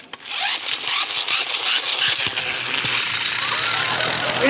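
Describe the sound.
A dentist's drill rattles and buzzes, then settles into a loud, steady, high-pitched whine for the second half, with a brief spoken word at the start.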